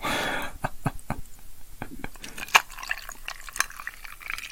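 Sake poured into a cup, a quiet run of liquid splashes and small drips in an irregular rhythm, heard alone.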